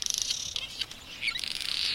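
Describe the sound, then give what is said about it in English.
High-pitched chirps and rattling calls from colony-nesting birds: a rapid pulsed rattle at the start, sharper squeaks in the middle, and another fast chattering run to the end. “rattling, and creaking. So when one bird finds a swarm of insects, it spreads the word to its neighbors.”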